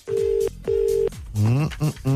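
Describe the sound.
A telephone ring tone sounds on an outgoing call: two steady, buzzing tone bursts of about half a second each, separated by a short gap, then a person starts speaking over the line.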